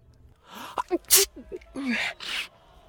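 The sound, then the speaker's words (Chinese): A sharp, loud sneeze bursts out between short voiced vocal sounds and is followed by breathy nasal noise. “正在开封府南大街上走的展昭突然扬起脸，一个喷嚏，他揉了揉鼻子”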